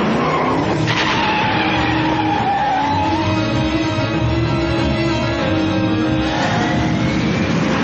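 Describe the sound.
A car speeds and skids in a video game. Drawn-out tire squeals ride over a loud, constant engine roar that fills the whole stretch.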